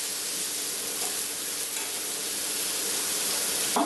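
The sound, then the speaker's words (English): Caramelized pieces sizzle steadily in a frying pan while being stirred, giving a constant, even crackle with faint scraping and no speech. “So just give them a good stir.”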